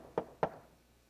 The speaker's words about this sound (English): You have to be persistent. That means that when you knock,